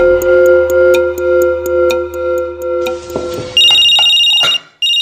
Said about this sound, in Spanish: Yo le he dicho que yo le compré ese celular es para que hablemos los dos, no para que le anden llamando a toda hora.